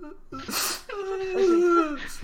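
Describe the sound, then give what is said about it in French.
A voice imitates sobbing during a tabletop vampire role-playing game: a couple of sharp, breathy gasps lead into a drawn-out, quavering whimper, then a final short intake of breath. “Il te regarde, pour le moment il sanglote.”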